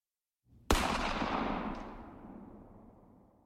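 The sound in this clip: A gunshot sound effect in a radio drama: one loud, sharp blast follows a brief low rumble, then a long roaring tail fades slowly over about three seconds, with no voices.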